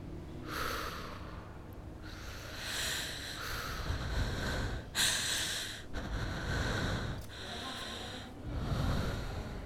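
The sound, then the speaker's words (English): Slow breathing in and out: long, steady breaths with airy, snorting edges, rising and falling at an even, unhurried pace at a soft level. “Now breathe with me. In and out.”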